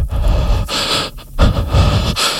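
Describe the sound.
A voice imitates the heavy breathing of a horror film, with a few loud, raspy inhales and exhales that come in uneven bursts and have no talk around them.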